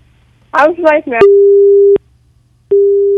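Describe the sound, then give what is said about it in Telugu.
Busy tone on a phone line after a call is cut off: a brief stretch of talk gives way to a long, steady electronic beep. A pause follows, then the same flat tone returns and holds to the end. “అరే, call cut అయింది.”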